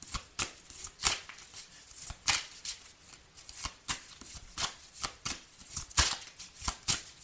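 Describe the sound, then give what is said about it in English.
Playing cards being shuffled, dealt and handled: many quick, sharp riffling snaps and slaps in an uneven, steady rhythm, with no talking. “May I have some more cards, please? Thank you. May I have some more? Thank you. Wow. May I have some more cards,”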